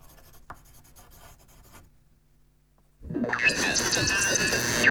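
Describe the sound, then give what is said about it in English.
A pen scratches on paper as a man writes at his desk, at first faint and intermittent, then after a short pause a loud, steady stretch of scratching fills the rest. “He slowly makes his way back to his seat at the desk. Eventually, he resumes his writing.”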